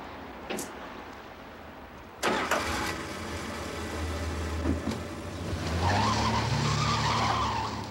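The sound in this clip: A car engine cranks and starts as the driver angrily pulls away: a click, then sharp ignition bursts, a low idle, and finally a revving engine that climbs in pitch and grows louder.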